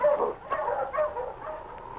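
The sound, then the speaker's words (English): A sled dog team yips and barks excitedly in a snowy chase scene of a radio drama, a short burst of overlapping high calls and whines. “The Mountie's dog team had kept up a steady pace, and the tracks of the sled they were pursuing were clear in the newly fallen snow.”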